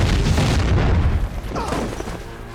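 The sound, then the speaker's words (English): Mortar fire exploding across a battlefield, heard as a loud, deep, rumbling roar that fills the whole clip without clearly separate blasts, easing slightly toward the end. “Mortar fire rips through the battleground.”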